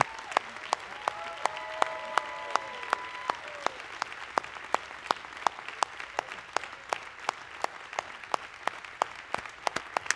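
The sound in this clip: An audience applauds in a standing tribute, its clapping settling into a fast, steady unison rhythm of many sharp claps. The crowd noise underneath stays moderate in volume throughout.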